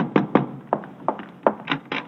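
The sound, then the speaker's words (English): Knocking at a door: several sharp, hollow raps in an uneven rhythm, fairly loud and heard alone. “Riley, there's somebody at the door.”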